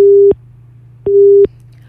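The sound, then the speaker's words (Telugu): A phone busy tone sounds after a dropped call-in to a radio show: two loud, steady, mid-pitched beeps separated by a pause, over a low constant hum. “Hello, okay, call అయితే cut అయింది.”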